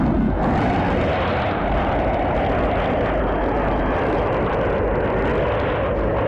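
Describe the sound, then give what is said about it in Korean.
Enemy aircraft drone overhead in wartime at night above a hillside valley, a heavy, continuous low roar that stays loud and unbroken throughout. “얼마 지나지 않아 적기가 둔중한 동음을 울리며 모리 위에서 소리했다.”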